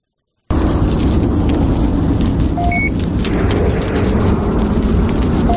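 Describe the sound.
A spaceship's rocket reactor explodes in a video clip: a sudden loud blast after a brief silence, then a sustained, dense roaring rumble that stays heavy to the end.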